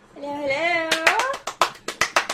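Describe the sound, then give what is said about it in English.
One-handed clapping: a high, wavering voice rises briefly, then a quick series of sharp, crisp claps follows in an uneven rhythm. “One-handed clap, everybody. Those are the two weirdest claps I've ever seen in my life.”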